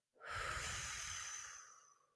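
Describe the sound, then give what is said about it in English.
One slow, steady breath, heard alone as a soft airy hiss that holds evenly for over a second before gradually fading away. “You're going to slowly inhale through your nose, feeling your stomach press into your hand, keeping your hand on your chest as still as possible, and then exhale using pursed lips as you tighten your abdominal muscles”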